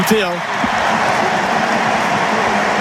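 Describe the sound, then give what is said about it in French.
A stadium crowd at a football match gives an ovation to a player being substituted: a loud, dense, sustained roar of cheering and applause that stays steady throughout. “Écoutez l'ovation pour Kylian Mbappé. Et il n'y a que 3000 Français, je vous le rappelle, dans ce stade. C'est une ovation mondiale.”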